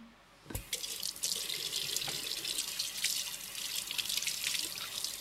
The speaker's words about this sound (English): step one, before you do anything in the kitchen, wash your hands for 20 seconds because we might have the virus.